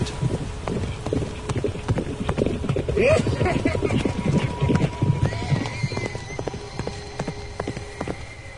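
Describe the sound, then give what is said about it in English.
Rapid, loud clip-clop of a black horse's hooves galloping past on a dusty road, with a brief neigh partway through and a voice talking over the hoofbeats. “He tumbled headlong into the dust, and Gunpowder, the black steed and the horseman, passed by.”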